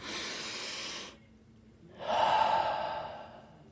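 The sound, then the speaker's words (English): A deep breath taken as a short pause between stretches of talk. A soft airy intake is followed by a quiet gap, then a louder, breathy release that trails off, and no words are spoken. “let me take one breath just to pause”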